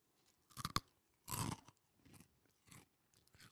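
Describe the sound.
Crunchy snacks bitten and chewed close up, ASMR style. A few crisp crunches come in uneven bursts, the loudest in the middle, then softer chewing crackles taper off. The sound is faint overall.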